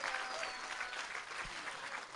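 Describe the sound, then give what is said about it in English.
An audience in a tent applauds a departing guest at an event: a steady wash of many clapping hands, fairly faint, evenly sustained throughout without talk on top. “Give him a rousing applause, yeah?”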